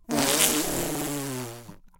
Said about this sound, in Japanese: 勝手におならが、うんこに押されておならが。